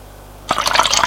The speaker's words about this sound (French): se sert un Pernod.